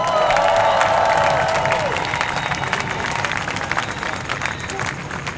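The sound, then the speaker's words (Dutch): Audience applause for the initiator of a petition at a street-campaign event, a dense, steady wash of clapping that eases slightly toward the end. “Een applaus graag.”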